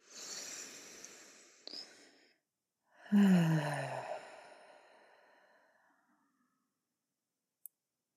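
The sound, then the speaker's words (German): A deep, full breath during a guided relaxation exercise: a slow airy inhale with a small click, a brief pause, then a long exhale carrying a low voiced sigh that fades gradually into quiet. “Nimm mit mir nochmal einen tiefen Atemzug, einen weißen, vollen Atemzug.”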